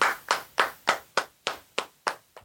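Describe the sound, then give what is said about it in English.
Slow, evenly spaced hand claps from two hosts applauding themselves: nine sharp, bright claps in a regular rhythm, each decaying quickly, the last one fainter, with no talk over them. “Awkwardly clapping for ourselves.”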